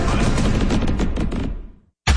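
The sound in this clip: Fireworks boom in a dense, crackling barrage of rapid, loud blasts that runs for over a second, then thins and fades to silence before a fresh burst cuts in.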